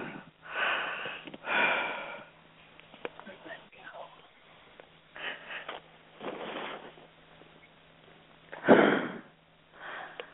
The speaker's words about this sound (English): Take a couple more deep breaths.